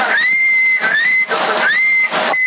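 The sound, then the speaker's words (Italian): A long whistle blown into a CB radio on the 27 MHz band, carried over the radio as a sustained mid-high tone. It breaks into a few stretches, each sliding up at its start, with hissy bursts of radio noise in the gaps. “provo a fischiare a lungo”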